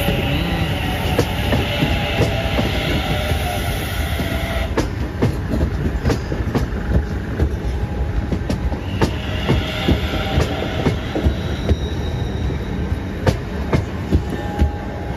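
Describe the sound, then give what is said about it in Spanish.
A train passing: a loud, steady rumble with rhythmic clickety-clack of wheels on rail joints running through the whole stretch. “hay pues un tren pasando”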